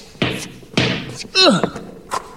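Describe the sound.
A basketball being shot makes a few dull thunks and thumps in short succession, like a ball hitting the backboard and bouncing.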